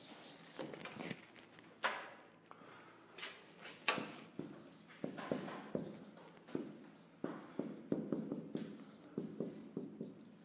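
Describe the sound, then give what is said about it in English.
Scratchy strokes of someone drawing a wheel diagram by hand: many short rubbing, squeaking marks in an irregular rhythm, fairly quiet and steady throughout, with no talking. “And so if it's helpful to think of an actual wheel, I will draw it.”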